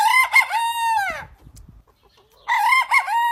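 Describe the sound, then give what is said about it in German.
A crested rooster, a breed with a feathered crest on its head, crows twice: two loud, bright calls separated by a quiet gap with faint scuffling. “So klingt ein Haubenhahn. Er trägt, wie der Name schon sagt, eine wunderbare Haube aus Federn auf dem Kopf.”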